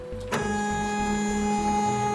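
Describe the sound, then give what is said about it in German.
A 3D printer at work: steady whining motor tones layered over a rhythmic low pulsing that repeats throughout, after a brief click near the start. “Tönt zwar wie ein Drucker, ist aber 3D.”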